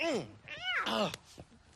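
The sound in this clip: A cat meows a few times in short, quiet, wavering cries that rise and fall in pitch, followed by faint soft clicks.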